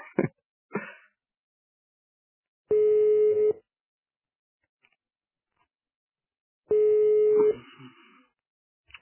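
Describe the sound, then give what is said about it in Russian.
Telephone tones on a forwarded call: a few short clicks, then two long, steady, low-pitched ringing tones separated by a silent pause. “О, уже другой звонок, переадресация.”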